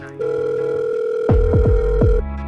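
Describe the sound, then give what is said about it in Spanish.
A steady, even telephone tone sounds while a call is being placed and holds for about two seconds before cutting off. A few low falling swoops join in over its second half. “Ven y yo llamo también al de Lola, a ver que me diga cómo es la vuelta ahí.”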